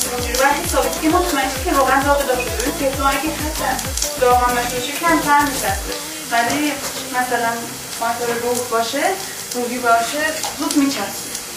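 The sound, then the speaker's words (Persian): Hot oil sizzling in a Teflon pan, a continuous crackling hiss that runs under people talking, with brief louder spits scattered throughout. “روغن داغ داخل روی تفلون اگه حتی داغ هم نشه کمتر میچسبه”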